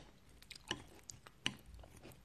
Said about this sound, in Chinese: 吃饭。嗯，多吃点，